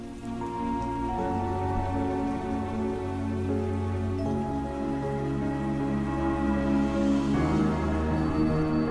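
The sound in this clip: Steady rain falls as a sound effect in a spoken horror story, a continuous hiss mixed under sustained low musical tones that shift a few times.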